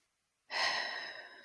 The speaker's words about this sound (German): Und ganz wichtig, jetzt auch ein paar Mal tief ein- und ausatmen.